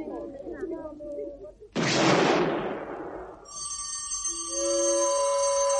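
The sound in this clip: A detonation bursts suddenly after voices, a loud roaring blast that decays over a couple of seconds. Vault alarm systems set off by the shock then sound in steady ringing tones.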